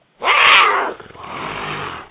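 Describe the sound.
A human voice imitates a lion's roar: one loud, rasping burst that trails into a lower, sustained growl before cutting off.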